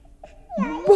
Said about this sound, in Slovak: Počujete? Počujem. Niekto plače v krovi.